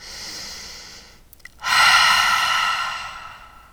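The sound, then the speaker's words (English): A deep breath is exhaled through an open mouth, as if fogging a mirror: a long, airy, breathy rush that starts abruptly after a quieter breath, stays strong for a moment and then slowly fades. “take a deep breath in and imagine as you exhale, you're fogging a mirror in front of you.”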